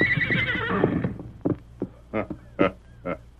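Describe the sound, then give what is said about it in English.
A great white stallion whinnies as it is being saddled, giving a long, loud, quavering neigh. Several short, sharp thumps follow. “a masked man was saddling a great white stallion while an Indian mounted on a paint looked on.”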